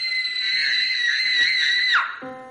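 A girl screams hysterically in a horror thriller scene: one long, loud, high-pitched shriek held steadily for about two seconds before it breaks off, followed by a short, steady lower musical tone.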